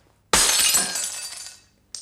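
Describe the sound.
Glass breaks with one loud, sudden crash, followed by a bright, shimmering tinkle of shards that slowly fades away.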